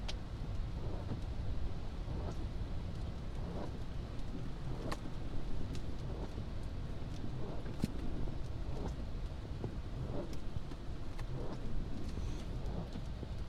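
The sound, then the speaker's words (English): Car interior noise while driving home after a show: a steady low road rumble with scattered small ticks and taps, no talking. “I'm driving back from my first show in a long time.”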